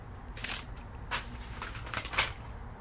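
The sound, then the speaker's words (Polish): A paper envelope is torn open and handled in a few soft, crisp rustling and ripping bursts, faint overall and spaced by short pauses. “A co to jest za koperta? Otwórz, zobacz.”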